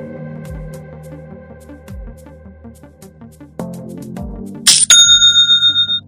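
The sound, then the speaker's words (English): Online store sale notification chime, a bright ringing tone that enters near the end after low musical tones, then repeats as a rapid series of fading bell-like pulses, loud and alone with no talking. “I just love that sound. It's the sound of another sale on Shopify,”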